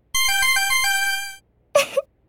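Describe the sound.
A phone message notification, played as a sound effect, gives a quick run of bright electronic beeps that ends in a longer tone. After a short gap comes a brief separate burst of sound.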